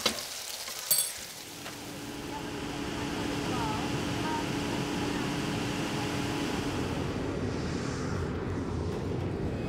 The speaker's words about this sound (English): Today we fly to the Grand Canyon. It's about a 45 minutes flight